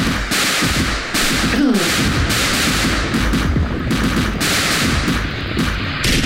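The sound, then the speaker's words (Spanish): Rapid gunfire at a shooting range, dense overlapping bursts of sharp reports hammering on without pause for about six seconds. “estamos aquí desde el lugar de tiro, pruebas atómicas.”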